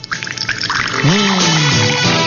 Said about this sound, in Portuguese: Tá aqui, ó, servindo o Café Moraes para os aniversariantes.